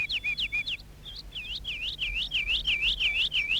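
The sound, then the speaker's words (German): Birds chirping in the cool evening over fields and a village near the sea: a rapid run of bright, high chirps repeating steadily throughout, clear above a low, faint background rumble. “Was ist denn nur mit diesen Vögeln los? So viele. Die Abendkühle macht sie verrückt vor Freude.”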